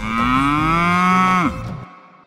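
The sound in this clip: A cow gives a single long, loud moo whose tone drifts slightly upward before dropping and breaking off abruptly, leaving a brief quiet tail.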